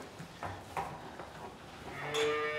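A cow moos in a barn where a calving pen is being prepared. Soft knocks and rustles come first, then a single drawn-out moo near the end, all fairly quiet.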